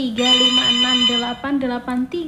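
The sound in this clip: A telephone rings with an incoming call from a listener to a radio station's karaoke request line. It opens with a steady, bright electronic tone, then breaks into several shorter repeated pulses, loud and clear.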